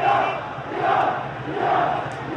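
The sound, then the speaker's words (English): Protesters marching through a street in central Tehran after a disputed presidential election chant together, many voices merging into loud, rhythmic swells that rise and fall in a repeating pattern. “Join us, join us, the crowds roared as they marched, and it seemed with each passing minute the crowds became larger and larger.”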